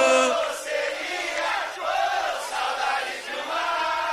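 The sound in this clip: A crowd cheering and shouting at a live show, a loud, sustained mass of voices with rising yells and calls that keeps going without a break.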